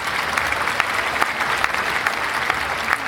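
Audience applause for a book rating: a steady, dense round of clapping that holds at an even level for about three seconds, with no voices over it.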